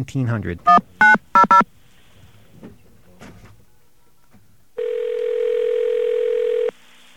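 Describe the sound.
Touch-tone telephone dialing a caller ID test line on a second line: a few short, sharp keypad beeps in quick succession, then a single steady tone held for about two seconds after a pause.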